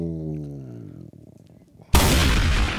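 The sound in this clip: A bomb explosion sound effect: a sudden, loud, broad blast cuts in after a quieter tonal lead-in and roars on steadily to the end.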